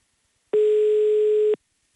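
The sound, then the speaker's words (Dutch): A telephone dial tone is heard as a call is placed. It is a single flat, steady tone lasting about a second, clean and alone, with silence before and after. “We gaan hem gewoon live in de uitzending bellen.”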